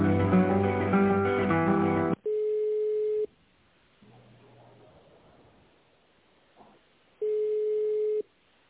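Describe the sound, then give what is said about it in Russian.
A telephone ringback tone heard while calling a company: two long, steady, mid-pitched beeps separated by a few seconds of near silence. A short burst of music plays at the start. “Мы позвонили в компанию Химпэк. Ждите ответа.”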